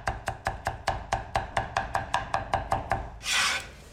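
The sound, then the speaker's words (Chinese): Garlic cloves crushed and minced with a knife: many sharp, evenly spaced chopping strikes in a steady, brisk rhythm, ending in a short rough scraping sweep, with no voices. “准备大蒜几颗拍散剁碎备用”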